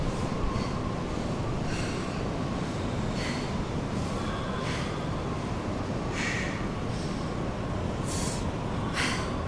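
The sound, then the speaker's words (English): A mountain climber breathes heavily at high altitude, with a series of sharp, hissing gasps at fairly regular intervals over a constant loud roar. “Relax. Just breathe. Breathe.”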